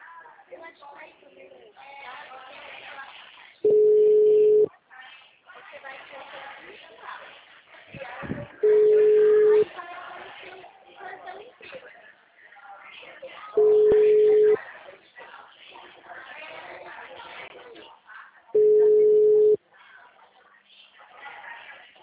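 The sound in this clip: An unanswered telephone call rings out as four long, steady ringback tones spaced a few seconds apart, with a person talking in the gaps between them.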